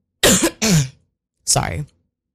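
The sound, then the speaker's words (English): A person coughing: three harsh coughs, two in quick succession followed by a third after a short pause. “I know I don't usually cough like in and around recording”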